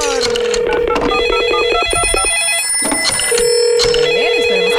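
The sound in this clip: Ringing tones of an outgoing telephone call being placed to a contest winner repeat steadily over a dense, busy background with other tonal sounds.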